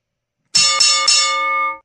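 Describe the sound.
A bell sound effect struck three times in quick succession, its bright, clear tones merging into one sustained ring that holds steady and then stops abruptly.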